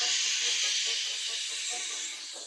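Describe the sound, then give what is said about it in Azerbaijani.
Snakes hiss in a continuous, airy, high-pitched rush that holds steady and fades slightly at the end. “O təpənin başına çatanda hər tərəfdən ilanlar fışıltı qopardı.”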